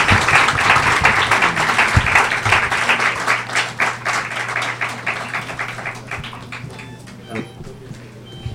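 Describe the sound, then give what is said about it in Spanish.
Dense audience applause after a lecture gradually thins and fades over several seconds, with a low steady hum underneath. “Envíen los aplausos desde fuera.”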